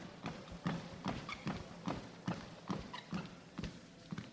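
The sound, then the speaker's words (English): Footsteps on a treadmill during a fitness test as the speed is lowered to a walk: an even run of soft thudding footfalls, roughly two per second, continuing throughout. “Slow the speed of the treadmill down, and I'll bring you down back to a walk.”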